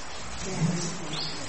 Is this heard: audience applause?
no